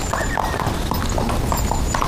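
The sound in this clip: Horse hooves clip-clopping as a rider arrives on horseback, a steady run of rapid hoof beats that fills the whole clip over dense continuous noise.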